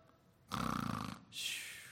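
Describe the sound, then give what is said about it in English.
A voice imitating snoring: a rattling, buzzing inhale lasting under a second, followed by a long, breathy, hissing exhale. “now I don't know if Jesus snored.”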